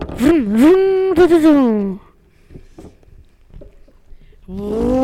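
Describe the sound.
A voice imitates a car engine starting, a strong buzzing vocal drone that rises, holds and sinks over about two seconds, then soft clicks and another engine-like voiced drone at the end.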